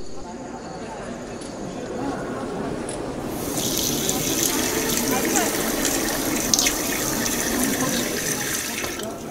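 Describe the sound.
Tap water runs steadily as someone washes for wudhu, the ritual ablution, a continuous rushing splash that grows somewhat louder partway through.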